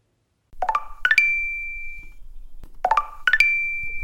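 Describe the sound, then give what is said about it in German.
A phone notification tone for a new dating-app message: a short, bright electronic chime of rising notes ending on a held high tone, heard twice, clear and alone. “Hey, was war das denn? Der Toni hat dir eine neue Nachricht geschickt.”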